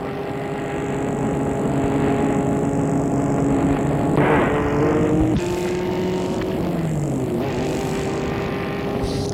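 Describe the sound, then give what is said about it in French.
A car driving along the road toward Lyon gives off continuous engine and road noise: a broad, even rumble with a low droning hum that stays level throughout, with a brief brighter swell partway through. “et la voiture file vers Lyon.”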